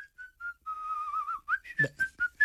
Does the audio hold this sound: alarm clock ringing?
no